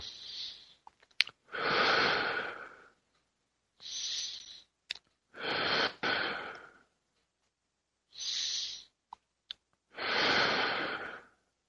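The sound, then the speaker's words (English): Slow, deep abdominal breathing makes three full breaths. Each short, airy inhale is followed by a longer, softer exhale, with quiet pauses and faint clicks between them. “And we're going to take a series of three more deep breaths.”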